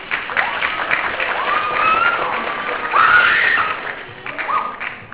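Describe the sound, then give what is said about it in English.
Applause and cheering from an audience at a school's end-of-year arts showcase: a dense, steady clatter of claps runs throughout, with higher shouts and whoops rising over it in the middle. “So, if you could please give them a round of applause.”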